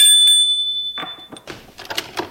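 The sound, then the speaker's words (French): A doorbell rings once at a home, a bright sustained tone that slowly fades over about a second, followed by a few irregular soft bumps and shuffling noises. “Charles sonne chez Alexandre.”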